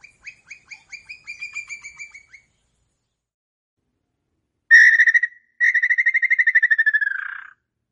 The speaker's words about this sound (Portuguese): Dentre todas as espécies de pica-paus brasileiros, este é o símbolo da área rural.